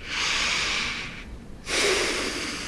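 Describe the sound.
A person takes deep breaths during a physical exam: two long, airy, hissing breaths with a short quiet gap between them. Both are fairly loud and carry no voice.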